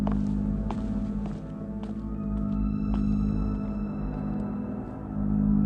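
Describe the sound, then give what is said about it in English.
Footsteps of a man walking out of a room, a few soft, spaced taps heard faintly beneath sustained low droning music. “You'll forgive me if I don't stay around to watch. I just can't cope with the freaky stuff. He leaves the room.”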